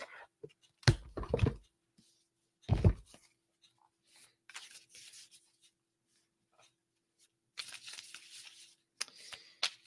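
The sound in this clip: Soft rustling and sliding of cards as one is drawn from an animal spirit oracle deck. A few brief scraping bursts are separated by quiet gaps, all faint and with no talking.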